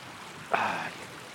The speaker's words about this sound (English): And the stream has broken into three separate streamlets.